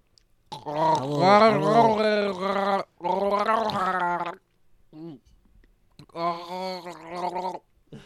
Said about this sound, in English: The Pledge of Allegiance with beer in your throat. Oh, gosh. That's good. Like you're gargling.